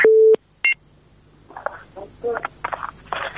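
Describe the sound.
After a dropped telephone call, a line tone sounds: one long steady beep, then a short second burst, followed by people talking.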